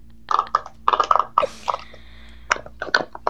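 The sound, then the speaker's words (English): Pops of a pop-it fidget toy being pressed: a few quick clusters of dry, snappy clicks with short pauses between them. “Yeah, that was a pop-it.”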